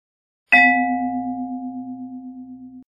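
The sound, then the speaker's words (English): A single bell-like chime in a children's read-along book signals a page turn, struck once and ringing on as a steady, slowly fading tone with a gentle waver. “When you hear this sound,”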